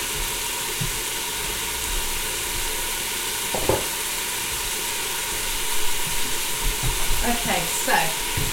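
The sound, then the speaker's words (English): Food frying gently in hot oil and being stirred in a pan: a continuous soft sizzle, with a few light scraping and clattering stir sounds that grow a little more frequent toward the end. “once that gets up to heat, that's going to just fry gently for a few minutes. And when we'll let that fry for a bit.”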